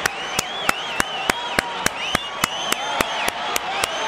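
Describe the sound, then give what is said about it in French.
A crowd gives a standing ovation for health workers' unions with steady rhythmic clapping in unison, about three claps per second, while voices cheer and shout over the beat. “qu'on fasse un gros standing ovation pour tous les syndicats du travailleur, des travailleurs de la santé.”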